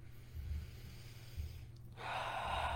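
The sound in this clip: Breathing during meditative breathwork: a couple of soft, low breaths, then a longer, louder rushing exhale that carries on to the end.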